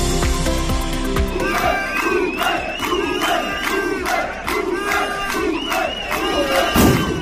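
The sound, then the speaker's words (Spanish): Metal workers at a protest rally in Pontevedra province chant slogans together. The loud massed voices keep up a steady, rhythmic chant with sharp beats underneath. “Este es el sonido de una nueva jornada de movilizaciones de los trabajadores del metal de la provincia de Pontevedra.”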